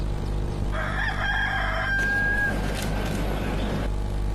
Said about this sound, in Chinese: 远远的就听到了鸡叫声，走过来果然写着卢氏鸡生态养殖，看来这儿一定有卢氏鸡。